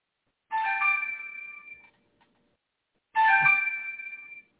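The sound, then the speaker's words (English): Mobile phone ringtone for an incoming call: two bursts of bright, melodic electronic tones, each lasting over a second, separated by a short pause and sounding alone. “Somebody was calling my phone.”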